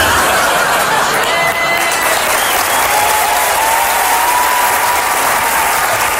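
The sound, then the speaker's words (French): Loud, steady applause from a live audience giving a standing ovation at a French-language stand-up comedy show, dense clapping sustained evenly throughout with a faint crowd murmur beneath. “Et si jamais vous aviez l'intention de me faire une standing ovation à la fin, je vais vous demander de me la faire, mais maintenant.”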